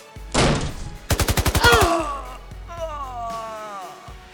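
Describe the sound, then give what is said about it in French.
Assault rifle gunfire: a sharp, loud blast, then a rapid, evenly spaced burst of shots, fading into quieter tonal sounds. “je saisis mon fusil d'assaut et je tirai sur les deux coquins”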